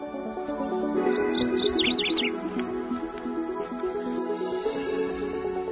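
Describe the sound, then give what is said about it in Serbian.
Small birds chirp in a brief cluster of high, quick tweets over a dense, steady background. “A kada ovaj pevac zakukuriče i ptičice zacvrkuću, to je znak da je definitivno došlo vreme za razlaz.”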